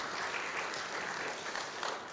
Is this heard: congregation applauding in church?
yes